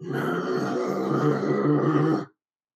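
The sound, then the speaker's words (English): A low groan rises from deep within shifting rubble of concrete slabs and steel beams. It is a dense, steady drone lasting about two seconds, then it cuts off abruptly. “And then something deep within the rubble shifts and you hear a groan.”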